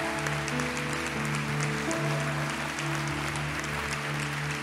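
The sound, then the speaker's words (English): An audience at a church service applauds to welcome a guest pastor, steady dense clapping running throughout over sustained low musical tones. “Would you put your hands together? Give a big Rock City welcome to our friend, Pastor Herbert Cooper.”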